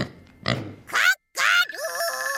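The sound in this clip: Pig grunts and squeals: a low rough grunt, then two loud, high, harmonic squeals split by a brief silence, followed by a lower wavering oink that trails on to the end.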